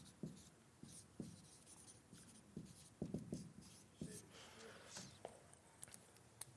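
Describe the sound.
Handwriting strokes: a faint, irregular run of many short, scratchy pen or marker strokes, with small pauses between bursts of writing.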